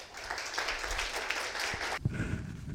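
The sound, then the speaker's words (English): Audience applause welcoming a pastor to speak: steady, dense clapping that stops abruptly, after which a voice begins faintly. “So I'm going to get out of the way and ask that you would please welcome with your hands Pastor Steve Marquez.”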